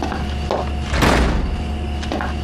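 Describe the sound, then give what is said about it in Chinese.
A door is pulled shut in a factory director's office, making one short, muffled bang near the middle against a steady background hum. “行，进来吧。哎，门关上。 关门。”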